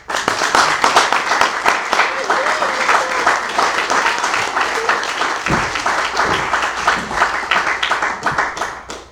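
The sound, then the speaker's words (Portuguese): Sustained audience applause at a theatre celebration marking an actor's fifty years on stage: dense, loud clapping from a crowd that fills the whole stretch without a break. “E uma salva de palmas para ele.”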